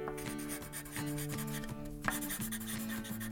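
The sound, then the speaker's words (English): Pen scratching and rubbing as a teeny tiny love message is written on a paper elephant card, a soft, steady scraping texture running under bright tonal music. “I love it, love it, love it. And I'm going to write a teeny tiny love message on mine.”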